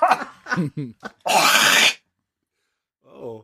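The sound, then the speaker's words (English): Coughing and throat clearing from a tickle in the throat: a few short, rough, voiced hacks, then a longer harsh, breathy cough, a pause of silence, and a brief low vocal sound at the end. “Someone's dying. I had a tickle in my throat.”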